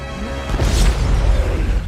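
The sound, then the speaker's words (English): A loud explosion blast engulfing a building in flames, a dense, sustained roar with a deep rumbling low end and broad crackling hiss filling the whole moment. “Hiro takes a step closer to the building, but is thrown back by an enormous blast. He looks up to see the building engulfed in flames.”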